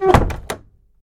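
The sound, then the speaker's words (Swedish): A door being shut at night: a dull wooden thud followed by a second, lighter knock as it settles, then quiet. “När jag stängt igen dörren blev det tyst”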